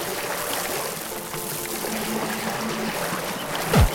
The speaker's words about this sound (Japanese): これ滝。